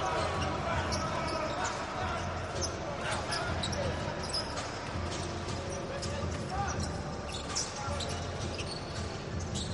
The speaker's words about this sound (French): Le dribble dans le dos pour Maiberg.